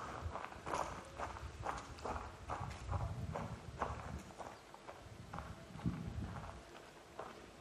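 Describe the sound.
Footsteps of people walking down from a rooftop overlooking farmland: a long run of crisp, evenly spaced steps at a steady walking pace, with no talk over them.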